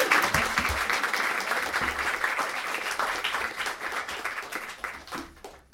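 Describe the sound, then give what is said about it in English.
An audience gives a round of applause at an evening book reading. The dense, even clapping holds steady for several seconds, then thins and fades toward the end. “So how about a round of applause?”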